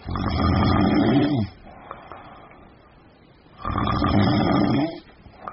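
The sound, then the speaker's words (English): Light, rhythmic snoring from a sleeper: two long, rumbling snore breaths of even loudness separated by a quiet gap, with a faint hint of a third at the end. “Voigt says, when snoring is light and rhythmic, it may be annoying, but it's not a problem. It tends to sound like this.”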